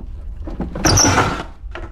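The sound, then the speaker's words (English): A dresser's top drawer slides with one loud, rough scraping rumble in the middle, with softer knocks and rubbing before and after it. “He cautiously opens the top drawer of the dresser.”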